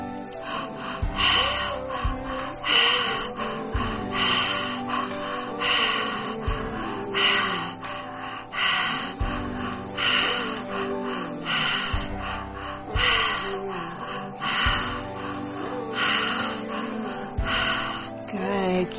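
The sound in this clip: Deep breathing during a guided breathing meditation: many slow, rhythmic inhales and exhales, each a loud, airy rush, repeating at a steady pace.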